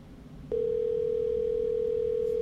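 A telephone voicemail system tone: a single steady, mid-pitched beep begins after half a second and holds evenly for about two seconds over a faint hiss.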